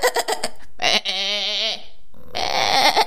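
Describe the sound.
Sheep bleat: one long, quavering bleat follows a brief spoken word, then a second, rougher bleat comes after a short pause.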